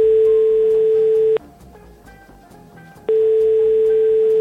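Telephone line tone while a call is placed: a steady, loud, mid-pitched electronic tone sounds for over a second, cuts off for almost two seconds, then comes back and holds.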